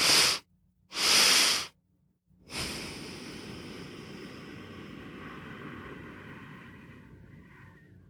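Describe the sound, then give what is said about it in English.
Breathing for calming and stress relief: two sharp inhales with a short pause between them, then one long, slow exhale that hisses softly and fades over several seconds. “You take two sharp, kind of longer inhales, and then one very long, slow exhale.”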